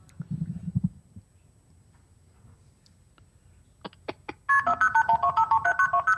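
Telephone dialing tones at the start of a recorded emergency call: after a few scattered clicks and some quiet, a quick, even run of many bright beeps plays steadily, with no voices.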